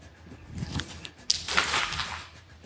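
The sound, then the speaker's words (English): A cast net thrown into water to catch bait: a quick whoosh as it leaves the hand, then a broad, hissing splash as the net spreads and hits the surface. “And you're gonna let it roll off of your left hand like that. Then you're gonna let that net sink to the bottom, reload, shake the grass out of it, then you'll have a bunch of bait.”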